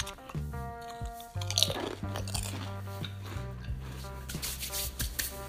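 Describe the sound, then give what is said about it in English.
Crisp crunching and chewing as someone bites into food with a tricky texture during an ASMR eating session: many crackly bites and mouth sounds over a steady tonal background, with no talking. “So if I bite it in the right spot, it's just gonna like, it's gonna make me cringe a little bit.”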